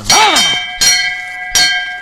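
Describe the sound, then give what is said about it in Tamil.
A hand bell rung three times, each sharp metallic clang leaving a bright, sustained ringing tone that carries on until the next strike. “மணி அடிச்சிட்டு இருந்தியா நீ? எங்க ஒரு வாட்டி அடி பார்க்கலாம்.”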